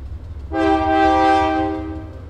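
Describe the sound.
A freight train horn sounding as the train passes a migrant shelter in Mexico: a sustained, rich harmonic blast begins suddenly after a low rumble, holds for over a second, then fades back into the rumbling of the rail cars.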